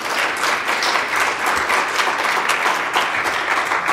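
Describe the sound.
Audience applause welcoming a guest speaker: steady, loud clapping from many hands fills the whole clip evenly, without a break.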